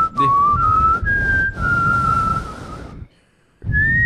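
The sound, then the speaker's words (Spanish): A person whistles a tune, a clear, bright tone holding long notes that waver slightly. There are brief breaks between phrases and a longer pause near the end before the whistling resumes over a low background rumble. “Este, con un silbido nunca se falla, ¿no?”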